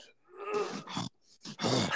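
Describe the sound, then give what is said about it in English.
A voice imitates heavy, strained breathing while gaming and squeezing a controller hard. It comes as a few groaning, voiced huffs with short gaps between them. “I might like squeeze my controller really hard and go and breathe heavily like”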